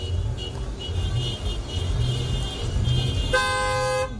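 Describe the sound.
Car horns at a 50th anniversary motorcade, with a long, loud horn blast near the end over a steady rumble of engines and traffic.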